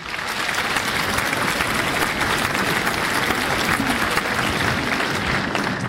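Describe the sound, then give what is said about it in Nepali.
Celebratory applause for a lucky prize-draw winner during a Nepali-language program for listeners in the Brunei garrison. Many hands clap in a dense, steady wash lasting several seconds. “अब हामी ताली पनि पड्काइहाल्छौँ।”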